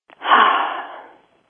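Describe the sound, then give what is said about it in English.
A single deep breath, loud and alone, swelling quickly and then fading out over about a second. “Okay, I took my deep breath.”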